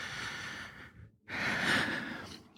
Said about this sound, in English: take a nice big deep breath.